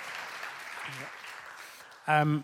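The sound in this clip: Audience applause welcoming a guest, moderate clapping that gradually tapers off before a voice starts speaking at the end.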